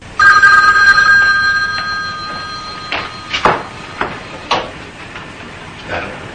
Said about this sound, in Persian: اما تلفن زنگ میزنه.